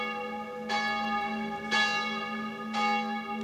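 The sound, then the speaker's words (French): A church bell in a small village near Strasbourg rings in the evening: three resonant strikes at a steady pace, each one ringing on and fading over a constant low hum. “Au moment où la cloche sonnait”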